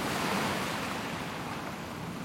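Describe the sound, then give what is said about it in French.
Sea waves washing onto the shore in an Attack on Titan anime scene make a steady, broad, rushing surf that is fairly soft and heard alone, with no voices. “Une immense étendue d'eau, comme le décrivait mon livre. Une eau contenant plus de sel que ce qu'un marchand pourrait vendre durant toute sa vie.”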